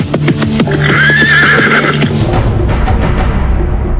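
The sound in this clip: A horse whinnies loudly as its rider pulls hard on the reins. The long, wavering neigh rises over a few thudding hoof clops, and steady noise continues after the call ends.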